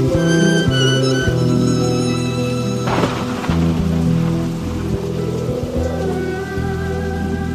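Rain patters steadily beneath sustained musical tones, with a brief louder rush of noise near the middle.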